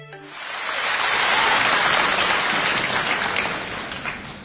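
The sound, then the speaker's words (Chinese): Warm audience applause for a Chinese crosstalk comedy performance in Beijing: dense clapping swells quickly, holds full and steady for several seconds, then eases off slightly toward the end. “谢谢大家热情的掌声， 感动让人。”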